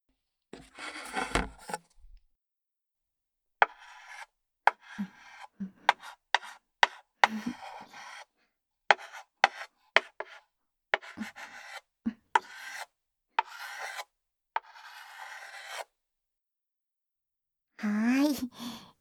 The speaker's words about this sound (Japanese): 今のでわかったかな？答えはね、チョークアートだよ。